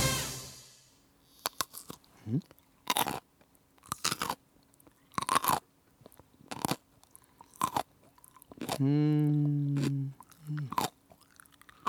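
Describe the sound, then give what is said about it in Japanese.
A person chews crunchy food during a game of guessing foods by their chewing sounds. Crisp, separate crunching bites come at irregular intervals, and a short hummed voice sounds near the end. “そうですそうです、私の咀嚼音。”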